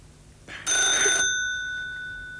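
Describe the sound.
Telephone ringing: one brief burst of bright, tinkling bell tone lasting about half a second, then a slowly fading ring-out, fairly faint overall.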